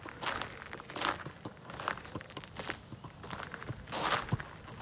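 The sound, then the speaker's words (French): Footsteps walking through a cemetery: several quiet, evenly spaced steps at a steady walking pace, with soft crunching textures between them and no voices. “On marche dans le cimetière de la Coulonche.”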